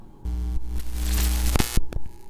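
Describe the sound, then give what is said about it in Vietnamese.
Two head-mounted flashlights buzz and crackle as a coffin lid is pushed aside: steady hum and hiss build, a few sharp crackling bursts break through near the end, then the sound cuts off abruptly into near silence. “hai cái đèn pin treo trên đầu của hai người đột nhiên rè rè rè rè một cái, rồi chập tắt ngấm.”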